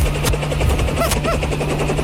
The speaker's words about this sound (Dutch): Er landt hier een enorme helikopter.